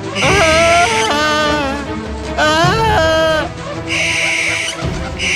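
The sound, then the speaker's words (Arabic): An owl screeching in a few loud, wavering cries, each about a second long with sliding pitch and a bleating, harmonic tone, separated by short pauses. “وطارت فوقه بومة بعينين مخيفتين وعلى الصراخ.”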